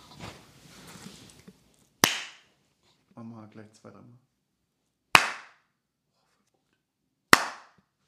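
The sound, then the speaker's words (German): Three single hand claps, sharp and loud, spaced a few seconds apart, with brief speech before the first clap and between the first two. “Wir müssen klatschen. Ja, guter Punkt.”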